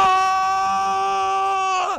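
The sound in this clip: A person lets out one long, loud shout into the woods, holding a steady voiced pitch for about two seconds before it drops off at the end, alone with no other sound.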